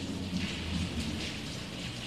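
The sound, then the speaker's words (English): Light rain falls outdoors during a storm, a steady, faint hiss of drops that stays even and unbroken throughout. “I can hear what sounds to be a little bit of rain coming down.”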